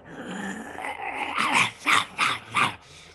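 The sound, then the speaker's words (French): A voice imitates wolves and half-human wolf creatures with a low, rough growl that builds into a short series of harsh snarling bursts, loud and alone. “il y a comme un bunch de loups, puis de créatures mi-humaines, mi-loups, qui sortent dans l'entrée. Imagine ça, là, qui sortent, ils sont juste comme.”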